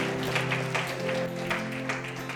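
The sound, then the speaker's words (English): Audience applause ringing out as a crowd claps together, a steady, fairly loud wash of many hands lasting the whole clip with no clear breaks. “Give them a round of applause, would you? Give them a round of applause, all right?”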